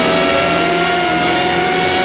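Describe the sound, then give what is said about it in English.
A bulbous black police cruiser races up beside a passenger bus on a long causeway between islands, its engine a loud, steady, dense roar that fills the whole clip. “a bulbous black police cruiser races up beside a passenger bus.”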